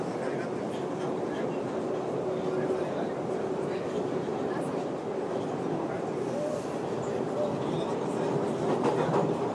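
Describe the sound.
A London Underground train near Barons Court rumbles through a tunnel, a continuous, loud roar of wheels and motor with a faint steady whine.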